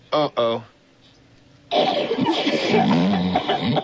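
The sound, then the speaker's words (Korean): Two short synthetic coughs, made with an electronic organ and a computer and heard over a telephone, sound as brief tonal bursts in quick succession, mimicking a gravely ill person's cough, followed by a louder, dense stretch of sound. “전화기를 통해서 들려오는 페리스의 기침 소리. 전자 오르간에 컴퓨터를 합성해 만든 그 소리는 영락없이 중환자의 기침 소리입니다.”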